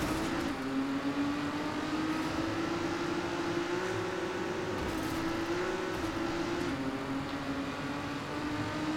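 Race car engine in the video game Trackmania: a continuous droning whine held at a near-constant pitch, with slight wavering as the throttle eases and returns. It runs unbroken throughout.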